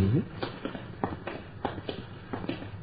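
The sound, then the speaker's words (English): Footsteps of people walking a short way down a residential street, a steady series of soft, evenly spaced footfalls over quiet background noise. “Let's walk down a little further, shall we?”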